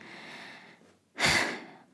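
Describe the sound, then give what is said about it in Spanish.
A single breath taken by the speaker: one quick, airy inhale that swells suddenly midway and then tapers off, alone and without any words. “Respiro.”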